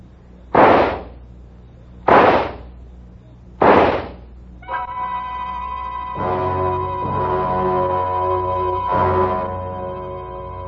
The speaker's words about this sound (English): Then I opened my purse, took out the gun, aimed very carefully at a spot just in the center of his left shoulder blade, and pulled the trigger 4 times.